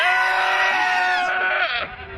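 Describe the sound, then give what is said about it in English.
Goats reported to have rabies after contact with a skunk let out a loud, quavering bleat, a harsh, buzzy cry that wavers and then drops in pitch as it trails off. “And here to comment are the goats.”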